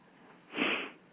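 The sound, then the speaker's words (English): One deep breath is drawn in as a soft, airy rush that swells and fades over about half a second, with no other sound around it. “I'm just going to take a breath.”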